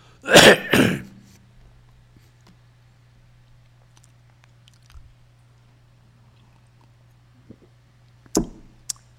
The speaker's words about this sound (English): a real saint should not have had a cough, you see.